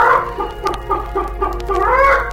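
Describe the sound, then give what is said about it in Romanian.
A hen clucks in a steady series of short, throaty clucks with a lively, uneven rhythm, heard alone without talk. “Baba avea o găină”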